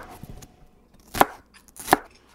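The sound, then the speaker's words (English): A knife slices lemongrass into small pieces, working from the tip. There are two crisp, sharp cuts a fraction of a second apart, preceded by faint, soft handling sounds. “how do we cut the lemongrass? Roughly smaller slices, just starting from the tip right here.”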